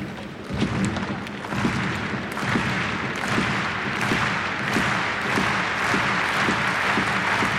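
Subdued applause from a tennis crowd during a Svitolina match, a steady wash of many scattered claps holding at an even, moderate level throughout.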